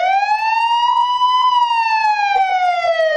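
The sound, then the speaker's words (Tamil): An emergency vehicle siren holds a loud, continuous wailing tone, rising slightly in pitch and then sliding gradually lower, steady and unbroken throughout. “இந்த மாதிரி siren சத்தம் கேட்டா என்ன பண்ணுவீங்க?”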